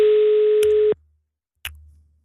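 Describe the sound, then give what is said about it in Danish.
Telephone busy signal: one steady, mid-pitched tone lasting just under a second, then a click and silence, then another short click and a low hum. “Nummer, du ringer til, er optaget.”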